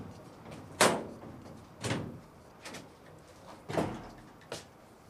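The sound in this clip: Door sounds aboard a ship as a bolt is slid back and the door opened: five separate clunks and knocks at uneven intervals, each a short sharp hit with a brief tail, over a quiet background.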